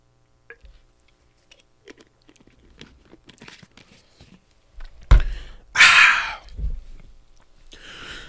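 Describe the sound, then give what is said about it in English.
A bottle of Lemon Lime Prime drink is cracked open. Faint scattered clicks and handling noises lead up to a sharp crack, then a brief louder rushing burst and quieter rustling afterward. “I had to crack open this lemon lime prime real quick.”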